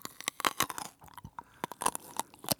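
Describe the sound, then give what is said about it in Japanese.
Crisp crunching as someone bites and chews a firm food: a rapid run of sharp, bright crunches with a brief lull near the middle, loud and alone without talk. “キュウリで言ったら、 はい、 3センチぐらい。 それぐらいしか食べてないの今の音で。”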